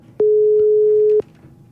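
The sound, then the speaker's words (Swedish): Telephone ringing tone while a call is being placed: one flat, steady, mid-pitched beep lasting about a second, with quiet line hiss before and after. “Vi ring Morten. Skal vi se.”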